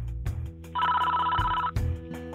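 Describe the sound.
A telephone rings once as a call is placed to the CIA, a single buzzing electronic ring burst set over a low, constant hum.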